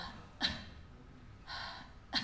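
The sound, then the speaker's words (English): A voice gently clears the throat by forcing air out in three short, faint breathy bursts, the middle one longer and softer than the other two, set against near silence. “One way you can clear your throat too that's safer is to force air out and just kind of go.”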